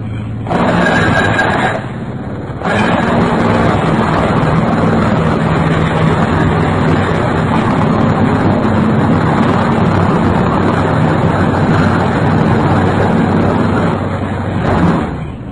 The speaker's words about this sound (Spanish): 105 decibeles. Un perforador neumático.